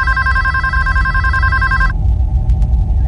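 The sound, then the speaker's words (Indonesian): A telephone rings with a bright, buzzing bell tone that holds steady, then cuts off about two-thirds of the way through, leaving a low background rumble. “Dan tidak pernah ada yang mau mengangkatnya. Bahkan aku tidak diizinkan mengangkat telepon itu.”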